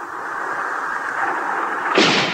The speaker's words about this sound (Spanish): El soldado del camión apunta y dispara.